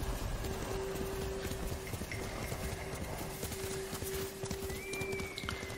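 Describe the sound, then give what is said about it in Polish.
Hooves of a galloping horse in a video game beat in a fast, steady, continuous rhythm, quiet and unbroken throughout, over a constant low hum. “Jedziemy, jedziemy, jedziemy. Ciekawe, czy ten koń się kiedyś męczy, czy nie.”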